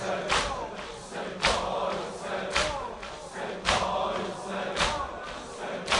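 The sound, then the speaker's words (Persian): Mourners in Muharram mourning circles beat their chests in unison, six heavy thuds falling about a second apart in steady rhythm over a low crowd murmur. “همچنین حلقه های ماتم تشکیل بدین، سینه بزن.”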